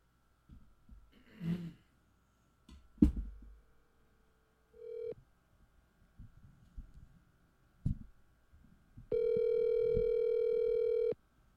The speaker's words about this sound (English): It's difficult for him to pick up the phone because his body's busted. Hope he's okay. This will be when you get two missed phone calls like that.